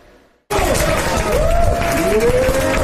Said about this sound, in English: Housing Secretary Scott Turner and Health Secretary Robert F. Kennedy Jr. are cheered on by formerly homeless residents at L.A.'s Dream Center.